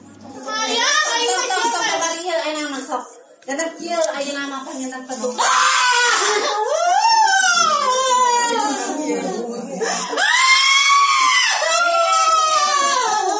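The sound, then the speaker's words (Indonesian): A woman cries hysterically during an argument over an unpaid debt to a lender, after throwing a pillow. Her high, strained wailing rises and falls in long swells, mixed with loud, agitated speech, and continues almost without a break. “Di tengah perdebatan, ibu tersebut tiba-tiba melempar bantal dan menangis histeris.”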